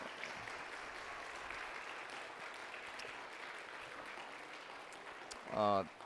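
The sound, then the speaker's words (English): An audience applauds after a musical performance with steady, fairly soft clapping for about five seconds before a voice briefly cuts in at the end. “Round of applause.”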